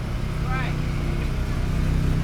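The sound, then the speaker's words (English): A Polaris cart drives by with a steady, low engine drone that runs through the whole clip. A voice briefly rises over the motor. “Yeah, Polaris isn't as nice as the other carts that have been driving around.”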